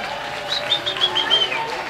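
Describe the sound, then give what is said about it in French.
Audience applauding the volunteers and organisers on the first evening of an event. A steady wash of clapping runs under a speaking voice, with a few brief swells. “merci à tous les bénévoles qui sont avec nous, merci à toute l'orga, on peut les applaudir aussi, merci à eux. Bravo !”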